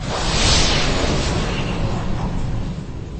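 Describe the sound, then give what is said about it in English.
Spaceship Peacemaker blasting off from a planet's surface: a loud, broad roaring rumble swells over the first half-second, then holds and slowly fades as a continuous rushing blast. “Here goes nothing, she said, and the Peacemaker blasted from Sunspot's surface and into cosmic chaos.”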